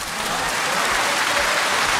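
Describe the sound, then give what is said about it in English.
Dense, steady applause from a crowd, answering a call for a round of applause for a football team knocked out of a tournament. The clapping stays loud and even throughout, with no talk. “A round of applause for them.”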